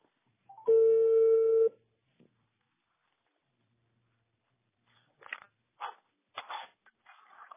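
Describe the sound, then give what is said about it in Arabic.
A telephone dials out to reach someone streaming online. A steady, loud line tone sounds for about a second, followed by silence and then a few brief, quieter bursts. “لحظة نتصل بالأخ الذي يبث على الإنترنت انقطع الاتصال”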